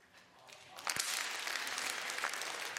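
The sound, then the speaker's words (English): A church audience claps hands during a service. The clapping starts faint, then swells sharply at about one second into steady, dense applause that holds to the end. “Psalm 47. Clap your hands.”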